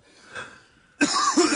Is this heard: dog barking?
no